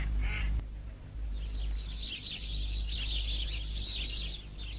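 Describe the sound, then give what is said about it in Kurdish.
A cartoon duck quacking: one short, bright quack right at the start, followed by a steady hiss with no further calls. “مراویەکە بۆ خۆم دانێ. دەی بۆ پێشەوە مراویەکەم.”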